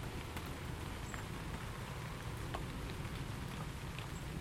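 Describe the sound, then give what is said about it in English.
Rain drips and patters onto the canopy of a shed in a soft, steady wash, with scattered brighter drops ticking through it. The sound is faint and even, and there is no talk. “Bone dry below the canopy of the shed, and it's nice to hear the rain dripping without getting wet.”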